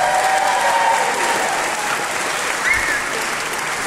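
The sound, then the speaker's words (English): Audience applause for a children's choir, a dense, steady patter of many hands clapping at an even level for about four seconds, with no voices standing out. “Harmony Children's Choir, ladies and gentlemen. Let's hear it for them again.”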